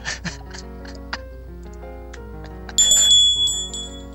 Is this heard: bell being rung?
yes